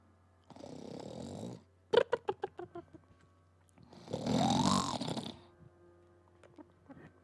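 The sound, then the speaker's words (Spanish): A person snoring: two long, rough, rasping snores stand against near silence. Between them comes a quick string of snorting pulses, with faint small sounds trailing afterward. “Cuando comenzó a roncar”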